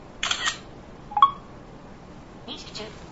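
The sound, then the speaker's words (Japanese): A smartphone camera with flash set to auto takes a photo, giving a few short, faint shutter-like bursts and a brief electronic beep, with quiet gaps between them. “あえて適当に撮ります。せーの。”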